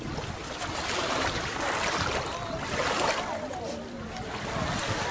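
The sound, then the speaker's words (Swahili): Lakeshore ambience where fishing goes on at Lake Victoria in Mwanza, a continuous, fairly loud wash of wind, water and boat noise with indistinct voices mixed in. “Ni pembezoni mwa ziwa Victoria katika jiji la Mwanza. Shughuli za uvuvi zinaendelea katika eneo hili.”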